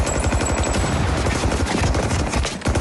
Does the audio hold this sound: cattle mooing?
no